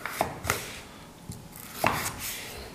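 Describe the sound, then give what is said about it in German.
A knife cuts a Hokkaido pumpkin, skin on, into strips. A few crisp, faint chops come at uneven intervals. “Die mit Schale kann man mit essen beim Hokkaido, schon. genau. Äh, wie gesagt, da mache ich so ein paar Streifen draus.”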